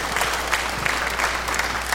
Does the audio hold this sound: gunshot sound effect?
no